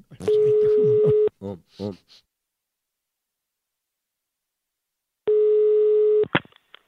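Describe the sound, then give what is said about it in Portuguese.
A telephone tone while placing a call: a steady, even beep lasts about a second, a voice speaks briefly, then a long silence passes before the same tone sounds again. “E agora eu vou ligar pra Wanda”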